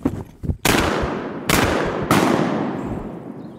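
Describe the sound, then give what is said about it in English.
Gunshots ring out during a bird hunt: three loud blasts in quick succession, each with a long, slowly fading tail, preceded by a couple of softer thumps. “They're gonna drop in here. Shoot him, boy.”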